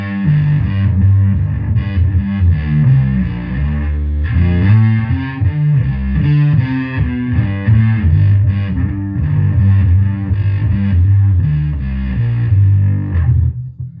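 Distorted electric guitar played through a fuzz pedal on its mildest setting, strumming continuous chords and riffs with a thick, saturated, steady tone that fades at the end, with no talking.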